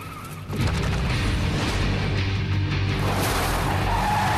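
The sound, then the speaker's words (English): Tires squeal and an engine roars as a 4x4 careers up out of an underground car park onto the street. The sound bursts in suddenly after a brief quieter start and stays loud and sustained throughout. “The 4x4 careers up out of the underground car park and onto the street.”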